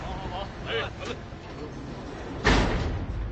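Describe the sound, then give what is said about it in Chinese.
A door opens and gives one solid thud, under voices and a background murmur. “把门打开。 哎，把打开。”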